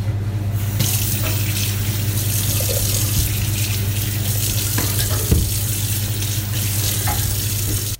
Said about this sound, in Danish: Nå, det var de her gurker. Jeg skyller gurker.